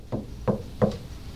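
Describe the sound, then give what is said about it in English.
Three firm, evenly spaced knocks on a door, each a short hollow rap standing out clearly against a quiet background. “if God comes up to a door, how do you suppose He might knock?”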